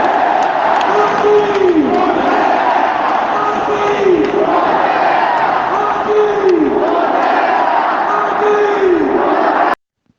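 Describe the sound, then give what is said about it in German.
Stadium crowd roaring at a football match after Joaquin Correa's 3:0 goal: a dense, sustained din with rhythmic chanting swelling and repeating, cutting off abruptly near the end. “Ihr konntet gerade das Highlight des Spiels hören, den 3:0-Treffer durch Joaquin Correa, der die Kraft hatte, nach einem überragenden Solo über den halben Platz noch die Kugel oben ins Eck einzuschweißen”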